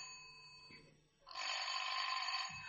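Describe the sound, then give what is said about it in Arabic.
A telephone rings with a loud, continuous metallic bell that starts suddenly after a quieter steady tone, holding at an even level to the end. “ردي على التليفون يا قطقوطه”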